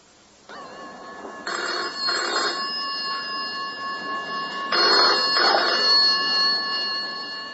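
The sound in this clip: A telephone rings in two double bursts, with a pause between the pairs. A steady tonal hum runs underneath throughout.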